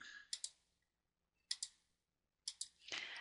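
Number keys pressed to work out a geometry area sum, heard as three short bursts of crisp double clicks separated by silence, the last followed by a soft rustle.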